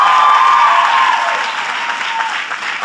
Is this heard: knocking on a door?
no